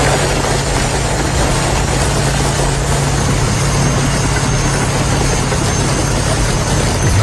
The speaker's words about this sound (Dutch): Bulldozers die reden een keer of 20 hop over die 200 scooters heen.